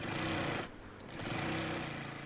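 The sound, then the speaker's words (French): Sewing machines, four of them, clatter at high speed in a colourful office-chair factory in Lagos. A dense, continuous mechanical rattle dips in loudness for a moment, then returns at full strength. “Au Chocoa Center, quatre machines à coudre font résonner leur cliquetis. Leurs petites aiguilles travaillent à toute vitesse dans l'usine bigarrée.”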